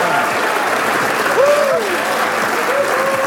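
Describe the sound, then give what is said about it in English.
Loud, sustained applause from an audience welcoming speakers onto the stage at an evening talk on theology, philosophy and religious belief; dense, steady clapping fills the whole stretch at an even level. “When they come on stage, please give them a massive round of applause”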